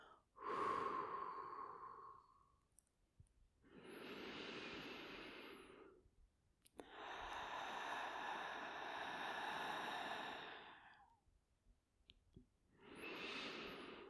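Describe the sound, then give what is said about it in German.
Slow, deep breathing during a guided meditation, in through the nose and out through the open mouth: a few long, soft, airy swells separated by short pauses, faint and alone. “Und nun atme ein und durch den geöffneten Mund wieder aus.”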